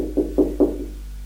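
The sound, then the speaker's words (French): Three evenly spaced knocks on a door, dull and low-pitched, each one short, then a faint steady hum continues. “se lève, va taper à la porte.”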